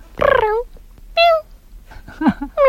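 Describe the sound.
A person imitating a cat meowing, giving a few separate drawn-out, tonal meows that vary in pitch, with short pauses between them.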